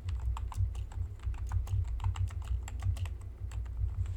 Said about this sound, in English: Sorry, that is the sound of me typing stuff.